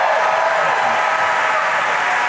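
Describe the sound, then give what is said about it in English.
Audience applause for guests being introduced, a dense, steady wash of clapping that holds at an even level throughout with no voices over it. “big round of applause for Michael Meadows and Tommy Smurl of Court Appointed Fame.”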